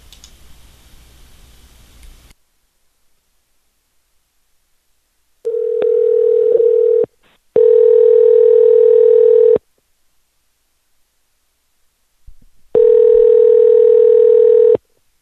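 Telephone ringback tone on an outgoing call. A short burst of hiss comes first, then three steady single-pitched tones each last about two seconds, with silent gaps between them.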